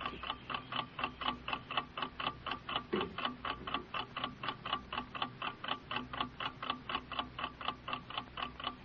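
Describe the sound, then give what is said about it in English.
A clock ticks alone in a quick, even rhythm, with many evenly spaced, crisp ticks running steadily throughout at moderate loudness. “Hear it ticking. Ticking your life away. It's ticking your life away.”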